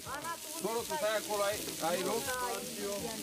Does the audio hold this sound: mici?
yes